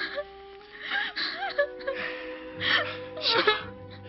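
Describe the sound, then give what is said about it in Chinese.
A person cries in distress over a dying flower, with gasping breaths, whimpers and uneven moaning wails that rise and fade. The sobbing is fairly soft. “别哭得那么伤心”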